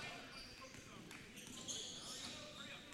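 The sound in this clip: A basketball dribbled on the court during a boys' high school basketball game, faint repeated bounces beneath steady crowd noise.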